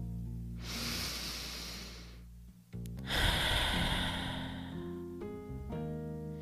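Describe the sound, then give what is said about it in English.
A person takes a slow, deep breath, with an audible drawn-in inhale and then a long, airy exhale after a short pause. Both are soft and sit over a quiet, sustained musical backdrop. “let's just take a moment and take a deep breath together.”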